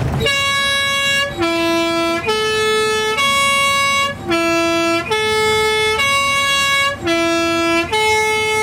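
A Swiss postbus horn, used on narrow mountain post roads, plays its loud, brassy three-tone melody three times in a row. The sustained notes step between pitches without pause.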